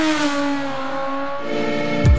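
Motorcycle engine revving in an advert for motorcycle tyres: a steady, harmonic engine drone holds throughout, then a brief, louder low burst comes near the end.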